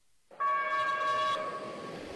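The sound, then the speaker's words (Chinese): A container freight train sounds one long, steady horn blast as it departs a freight station in Wuhan, and a lower rolling rumble of the moving wagons continues after the horn stops. “伴着汽笛声，满载着集装箱的列车驶出五家山货运站”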